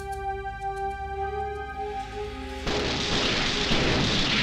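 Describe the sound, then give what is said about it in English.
A gun firing: after a held tone, a sudden loud blast breaks in about two-thirds through and carries on as a broad, rumbling roar. “Why are they doing this? Gun. It's the gun.”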